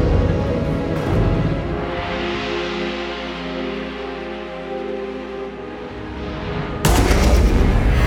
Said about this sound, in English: Maybe we should stop firing.